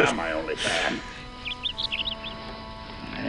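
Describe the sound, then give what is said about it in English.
Canary chirping as a movie sound effect: several short, high, bright chirps in a quick irregular run that follows a man's speech. “And then the bird, of course, on cue, chirps back.”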